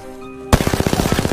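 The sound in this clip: Rapid automatic gunfire from the CAR gun in a video game, a weapon that takes both heavy and light ammo. After a short quiet hum, a loud burst starts suddenly and runs as a fast, even string of many punchy shots.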